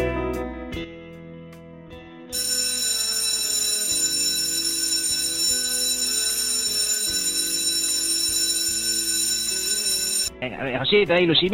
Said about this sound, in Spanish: ya sonó la sirena. Sí, comienza la clase